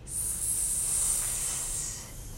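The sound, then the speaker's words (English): A person hisses like a snake as a breathing exercise, giving one continuous, airy, sibilant hiss that stays fairly even for about two seconds before easing off slightly, with no other sounds alongside. “Another one that's really, really great is to hiss like a snake.”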